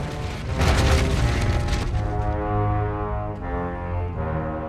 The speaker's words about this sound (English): As they tackle a blaze with their fire hose, a building behind them topples over.